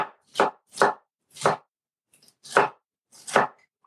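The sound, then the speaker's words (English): A knife slicing stacked pieces of a seeded vegetable on a cutting board: five crisp, distinct chops at an uneven pace, each a short sharp thud, with faint small knocks between them. “And they're not all over the cutting board. I'll cut this guy in thirds, stack them, and slice them.”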